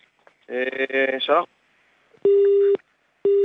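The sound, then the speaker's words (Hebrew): Telephone busy tone after a call disconnects: two loud, steady, mid-pitched beeps, evenly spaced, following a brief burst of voice. “שיחה נותקה.”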